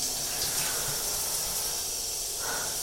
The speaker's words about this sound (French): L'eau est chaude sur mes jambes.